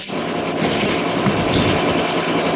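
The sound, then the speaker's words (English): A fan with a failing bearing rattles in a fast, continuous machine-gun-like chatter, a loud, even mechanical buzz that holds steady throughout. “Ah, the fan. That lovely machine gun rattle. It got worse. I think a bearing's going off or something.”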